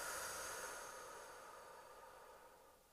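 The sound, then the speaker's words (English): A deep breath drawn in through the nose and let out through the mouth, a long airy hiss that starts moderately loud and fades gradually over about three seconds. “let's all just take a big, deep breath in together. So let's go in through the nose and out through the mouth.”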